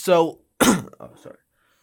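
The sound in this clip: A person clears their throat with a short voiced rasp, then a louder harsh burst, followed by a brief low vocal murmur.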